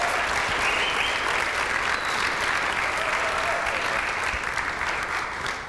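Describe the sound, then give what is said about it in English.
Steady, dense applause from a church audience welcoming a speaker to the platform, a continuous wash of many clapping hands that holds at an even level throughout. “So why don't you put your hands together”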